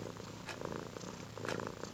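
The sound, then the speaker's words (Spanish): A cat purrs steadily, a soft, continuous low rumble with a gently pulsing texture that holds at an even, quiet level throughout, with no voices. “Amanda volvió a dormir profundamente mientras Azazel ronroneaba a su lado con el pequeño motor que tienen todos los gatos en su pecho.”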